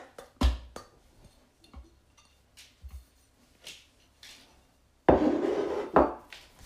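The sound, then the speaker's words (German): Butter for buttermilk waffles is put into a bowl: a few faint knocks of a utensil against the bowl, then a louder, longer scraping rasp near the end. “Als erstes füllen wir die Butter in eine Schüssel.”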